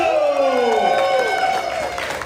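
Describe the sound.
Crowd cheering and applause for a comedian introduced on stage at a comedy show: a loud, drawn-out whoop slides downward in pitch over a steady wash of crowd noise that carries on throughout.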